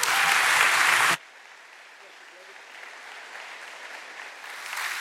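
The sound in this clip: Audience applause welcoming a speaker at a church, a loud burst of clapping that lasts about a second and then cuts off abruptly, leaving only quiet background.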